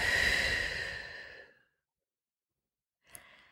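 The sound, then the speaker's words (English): A deep, audible exhale from a person taking a slow breath, breathy and fading out over about a second and a half, followed by silence and then the brief start of another breath. “take a deep breath in and out”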